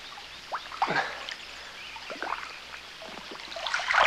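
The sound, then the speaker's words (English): A person swimming away through water makes irregular splashes and swirling, trickling strokes in scattered bursts, fairly soft, that grow denser and louder toward the end. “He swims away from her.”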